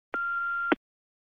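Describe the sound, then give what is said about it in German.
An answering machine gives a single steady electronic beep signaling the start of a message, a clear mid-high tone lasting just over half a second, heard alone and ending abruptly. “Das ist der Anschluss 503721. Bitte hinterlassen Sie eine Nachricht nach dem Signalton.”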